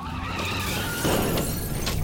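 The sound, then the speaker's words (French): Car crash on a winding mountain descent, with a hit against the driver's window as the vehicle leaves the road: a loud, continuous, noisy rush of skidding and grinding that swells into a heavier surge midway. “un gros bruit contre la vitre conducteur. Le véhicule quitte l'asphalte.”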